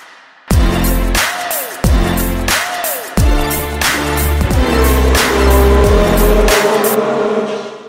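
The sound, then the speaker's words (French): Opening theme of a Formula 1 show built from racing car sounds: a few loud bursts of revving engines with high tire squeals, each starting abruptly, then merging into a sustained roar that fades out at the end. “Allez, générique.”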